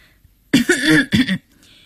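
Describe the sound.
An elderly woman coughs once after a moment of silence, a fairly loud, voiced, two-part cough with a throat-clearing quality, heard alone with no other sounds.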